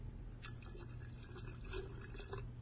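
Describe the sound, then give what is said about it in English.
Clean water poured from a pitcher into a pot, a soft continuous trickle and splash that stays faint and steady from start to finish. “what would happen if I took some of the clean water out of the pitcher and poured it in?”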